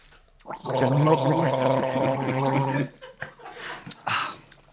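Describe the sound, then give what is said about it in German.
Wine is gargled during an Ahr wine tasting, a loud, bubbling, throaty gurgle lasting about two seconds, followed by brief laughter and voices. “Ähm, Gurgeln oder? Nein. Beim Gurgeln schmeckt Jeder tatsächlich mehr. Ehrlich? Ja. Ja, komm dann. Aber dann bist du auch schneller blau. dann gurgeln wir alle, komm.”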